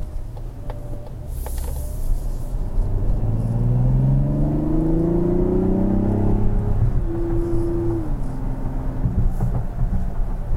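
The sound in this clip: Engine of a 2024 Mazda CX-90 SUV with 340 horsepower accelerating smoothly: a steady drone climbs in pitch for several seconds, then levels off and drops back over a constant low road rumble.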